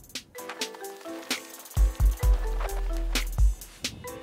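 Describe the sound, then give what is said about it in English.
Knee-deep wading through soft, claggy silt at the bottom of a pond: a few heavy, low squelching thuds as the legs drag through the mud, then a sustained murky churning, with faint scattered ticks and drips in the quiet opening. “I've walked through the soft silt in the bottom of the pond, really claggy stuff up to my knees”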